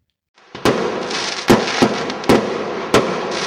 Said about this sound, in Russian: Когда прогремел первый салютный залп,